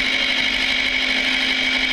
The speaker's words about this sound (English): There he goes in the little red tractor.